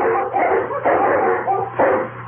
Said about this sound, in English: the dogs around the cabin began to bark.